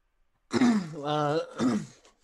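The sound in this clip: Someone clears their throat in a short, voiced rasp made of three brief bursts, the middle one a longer, rougher hum. The sound stands alone against silence.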